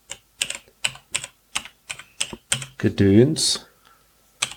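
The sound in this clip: Someone types a startup message on a device's small keyboard in a steady rhythm of separate, crisp keystrokes. The taps are spaced evenly, with a brief louder sound near the end.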